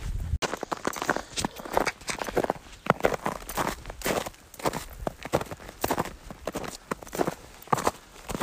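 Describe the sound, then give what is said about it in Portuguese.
Crunching footsteps in snow while hiking uphill toward Mount San Jacinto at about 3,300 metres, a continuous run of many crisp, gritty crunches in a steady walking rhythm with soft shuffling between steps. “Esse é o som da neve. Tô andando, subindo pro Monte São Jacinto.”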